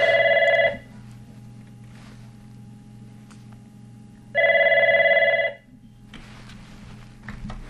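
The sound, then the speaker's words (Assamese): A telephone rings for an incoming call, with two bright, warbling ring bursts separated by a few seconds of quiet, over a low steady hum. “Phone number ring two আহি আছে এই কারণে মই এখান first কলরকে receive করে লব”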